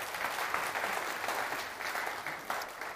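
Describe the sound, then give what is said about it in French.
A church audience applauds, a continuous, fairly faint wash of many hands clapping that holds steady for the whole clip with slight swells. “On peut acclamer le Seigneur pour ces quelques paroles.”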